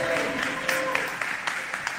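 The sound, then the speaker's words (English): Audience applause at a live celebration event for a hip-hop theater organization: dense, steady clapping across two seconds, with a few sharper individual claps standing out near the end. “All right, y'all clap it up for them. Clap it up, clap it up.”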